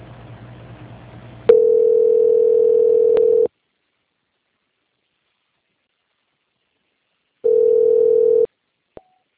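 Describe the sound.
A steady, single-pitched telephone line tone plays while a call is transferred. It sounds in two stretches, about two seconds and then about one second, with silence between them and a short click at the end.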